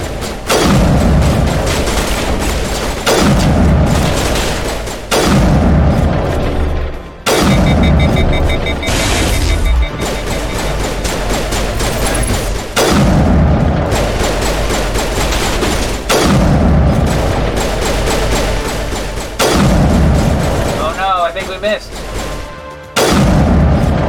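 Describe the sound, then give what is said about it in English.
A video game battle erupts in a series of loud explosions and gunfire, with heavy booming blasts recurring every few seconds and crackling shots between them. “Oh my gosh, this is the perfect spot for a sniper shot. Boom!”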